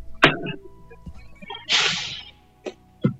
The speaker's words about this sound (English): Oh, bless you.